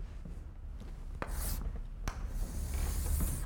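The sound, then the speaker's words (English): Scratchy strokes of a lecturer drawing graphs on a board: soft, rubbing scrapes with a few sharper taps, fairly faint and continuous, with no talk. “I'm going to draw graphs.”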